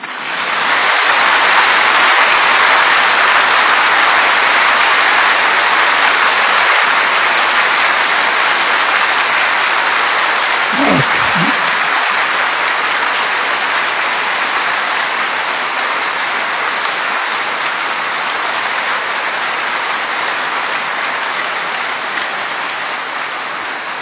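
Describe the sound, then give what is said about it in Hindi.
A group clapping hands in a long, dense, unbroken stream that stays loud and even for the whole span, with a few brief low thumps scattered through it. “ताली बजाओ।”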